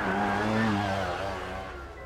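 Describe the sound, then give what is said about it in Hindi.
An auto rickshaw driving off at full speed, its engine giving a loud, steady tonal drone that eases slightly toward the end. “Auto वाले ने अपना auto full रफ्तार से दौड़ा दिया”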